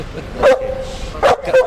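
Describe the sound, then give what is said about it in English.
A sniffer dog trained to search boats and rubber gives three short, sharp barks, the last two close together, with a thin whining tone running between them. “Not only is Adele a beautiful dog”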